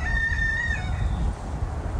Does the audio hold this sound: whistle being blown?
no